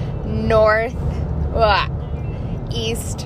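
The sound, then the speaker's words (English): Steady low rumble of road noise inside a car driving through the Smoky Mountains of East Tennessee, continuing under a person speaking. “You might hear a little road noise, but you know, I was driving through the Smoky Mountains of East Tennessee,”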